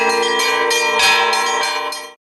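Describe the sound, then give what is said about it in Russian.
Church bells rung from a cathedral bell tower during a bell-ringing masterclass: loud, rich metallic tones, with a few strokes blending into one sustained, shimmering ring that cuts off abruptly. “В завершение участники встречи побывали с экскурсией на соборной колокольне, где руководитель прикладного курса «Звонарь» провел для них мастер-класс по звону.”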